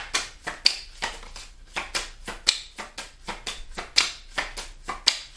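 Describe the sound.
Tarot cards are shuffled and drawn in many quick, crisp, papery snaps and slaps. They come in a fairly regular rhythm, moderately loud, with no voices.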